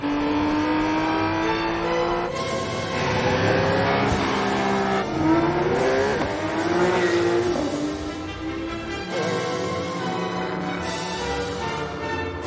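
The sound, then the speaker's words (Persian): A Porsche 991 GT RS Turbo S engine revs hard through several upshifts. Each gear climbs as a rising howl and drops at the shift, loud and continuous. “چه جور ماشینیه؟ پورشه 991 جی تی اس آر توربو اس.”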